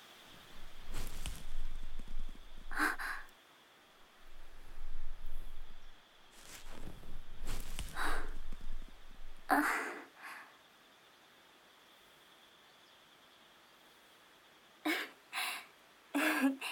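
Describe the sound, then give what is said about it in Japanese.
Quiet scraping and rustling from an ear pick during a lap-pillow ear-cleaning roleplay. Soft, intermittent bursts of scratching are broken up by stretches of near silence. “約束通り耳かきしてあげる。ほら、おいで。膝枕してあげる。”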